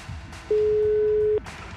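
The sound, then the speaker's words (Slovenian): A single steady telephone line tone, mid-pitched and lasting just under a second, sounds while a call is placed to an ambulance service organization, with quiet background noise before and after. “Kličemo pa ustanovo Malteški križ.”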